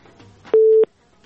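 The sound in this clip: A telephone tone sounds while a call-in is being placed: one short, steady, mid-pitched beep, loud and clean, with a faint murmur before and after.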